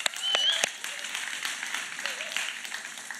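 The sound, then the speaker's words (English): Applause from a church audience at Resurrection Life Church in Granville, Michigan, for the worship team: a dense, steady patter of clapping that swells at the start and then holds at an even level to the end. “Give it up for the worship team.”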